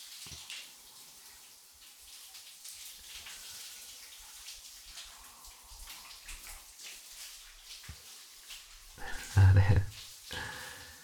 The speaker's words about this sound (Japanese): 先にシャワー浴びようね。俺が流してあげる。